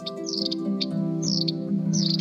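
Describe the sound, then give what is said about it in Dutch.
Wood warbler song: three high, slightly descending trilled phrases, each ending in brief sharp chirps, repeated at an even pace. “Ja, die bosgietzanger, daar kan je naar blijven luisteren. Waanzinnige zanger.”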